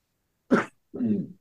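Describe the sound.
A sneeze in two parts: a sharp, explosive burst followed by a lower, voiced tail, heard alone with silence around it.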